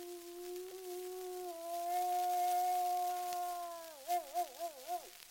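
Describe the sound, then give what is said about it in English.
An old mother wolf howls, calling the pack off: one long, faint, steady tone that dips slightly, then breaks into a wavering, warbling finish. “That's the old mother wolf calling them off, for she knows they cannot get that deer, and away they go to find an easier meal.”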